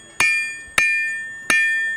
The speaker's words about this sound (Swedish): det som ni hör nu det är en medeltida smed, en sån som faktiskt fanns på skeppen.